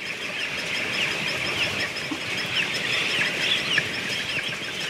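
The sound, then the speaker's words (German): Dense, continuous high-pitched peeping of broiler chicks struggling in a bucket on a chicken fattening farm in Emsland. Many overlapping chirps sound steadily throughout at fairly even loudness, with no talking. “Auch diese Aufnahmen entstanden in einer Hähnchenmast im Emsland, Küken, die im Eimer zappeln und offenbar sich selbst überlassen werden.”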